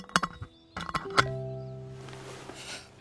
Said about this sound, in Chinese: 云建威把花一点点插进玻璃瓶，专心拨弄好造型，盖上盖捧起瓶子